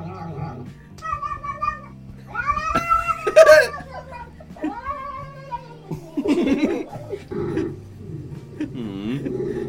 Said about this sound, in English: That was a good cat noise.